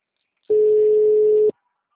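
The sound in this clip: A telephone tone sounds while a call is placed: a single steady mid-pitched tone lasting about one second, starting and stopping abruptly, alone between stretches of silence.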